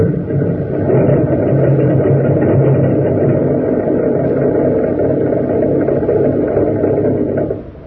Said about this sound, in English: That's a new airplane motor, idling on the test block. When it gets going, it turns faster than any motor ever built.